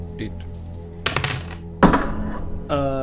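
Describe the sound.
A twenty-sided die being rolled during a tabletop role-playing game, heard as a few sharp clattering knocks among people talking.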